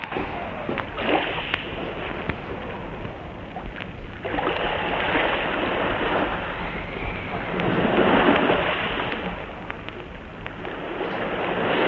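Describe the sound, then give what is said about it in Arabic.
Rough waves churning in a storm at sea, a continuous rushing, sloshing wash of water that swells and eases, growing louder toward the middle and end. “ايه العاصفه؟ يا ساتر يا ساتر يا رب. انت بتعمل ايه؟ بنزل القلح. البحر قام، البحر قام.”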